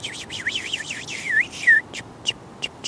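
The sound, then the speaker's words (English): A house finch calls while flying overhead in the woods: a quick series of high, wavering, warbled chirps, then a few short separate tweets over a steady hiss of background noise. “flying overhead. That's a house finch.”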